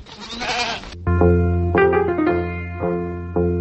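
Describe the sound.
Sheep from a village flock bleat in a long, steady-pitched call that wavers and pulses several times, loud and close, with no other animals clearly audible.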